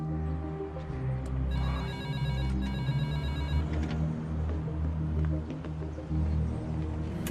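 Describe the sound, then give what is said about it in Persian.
A doorbell rings with a bright electronic warbling tone that lasts about two seconds, then stops, over a steady low hum with no talking. “زنگ در رو بزن.”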